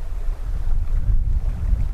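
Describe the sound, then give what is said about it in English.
Wind rushes through pine trees in a mountain forest near 9,000 feet, a steady, full-bodied roar with heavy low rumble that swells and eases slightly without pause and without voices. “Wind in the pines.”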